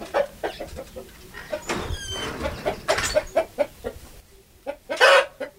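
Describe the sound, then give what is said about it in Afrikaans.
Australorp hens clucking in a backyard chicken coop: many short, loud clucks and squawks in an irregular rhythm, with no talking. “Dis is nou 'n hoenderhok.”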